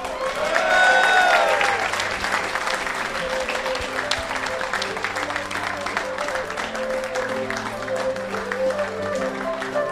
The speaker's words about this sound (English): So, ladies and gentlemen, please put your hands together for a big, big, massive welcome to Andrew Shillaby.